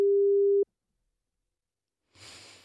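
A phone ringback tone sounds while a call waits to be answered: one steady mid-pitched beep lasting about half a second, followed by silence and then faint hissy noise.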